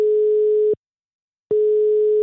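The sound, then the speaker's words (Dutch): Telephone ringing tone while a call is being placed: a loud, steady, single-pitched tone holds, cuts off into silence, then starts again with no voices present. “Maar eerst dus even bellen met onze teamgenoot Lissy.”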